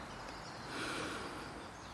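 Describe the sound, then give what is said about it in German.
A deep breath drawn in through the nose during a guided relaxation exercise, a soft, airy inhale that swells in the middle and then eases off, quiet and heard alone. “schließ mit mir gemeinsam die Augen und dann atme mal tief durch die Nase ein”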